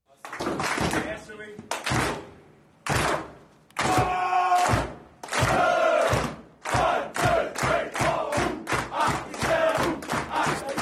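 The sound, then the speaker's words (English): A crowd chants and shouts in a sports team's change rooms. The voices come in loud, rhythmic bursts that grow shorter and more rapid toward the end. “Audio from the change rooms, 4 points.”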